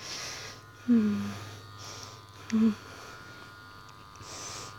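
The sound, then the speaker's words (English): A vibrator buzzes steadily and faintly throughout, with two brief vocal sounds rising over the hum. “Let's see how long I can go with the vibrator for a little bit.”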